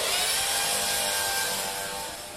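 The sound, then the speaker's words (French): An electric drill whirs in a hair salon as it is used to curl hair, giving a steady, bright, high-pitched buzzing that holds alone for a couple of seconds and eases off slightly at the end. “Elle fait des boucles à la perceuse, les plus connues mondialement, et on vient de tout l'univers que pour elle, Maïna Metal.”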